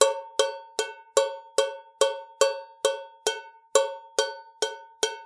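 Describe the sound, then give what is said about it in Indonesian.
A tin can struck over and over gives bright, ringing metallic clanks. About a dozen evenly spaced strikes each ring out briefly with a sustained tone before the next hit, heard alone. “Suara yang baru saja kalian dengar adalah suara kaleng.”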